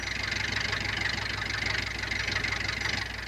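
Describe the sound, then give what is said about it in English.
A car engine idles with a weak battery, a steady low rumble and hum under a broad hiss that holds even throughout, with no talk over it. “Keep her running, Ma. Don't turn off a motor. Battery's a little weak.”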